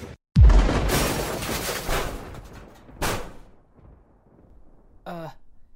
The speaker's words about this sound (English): Oh man, is that a missile?